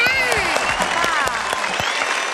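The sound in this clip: Audience applause at a family ball-catching game: steady, dense clapping that holds at an even level throughout, with voices rising over it.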